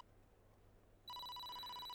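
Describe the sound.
A phone rings with an incoming call. After a second of faint hiss, a loud, steady, high electronic ringtone starts abruptly and holds unchanged to the end.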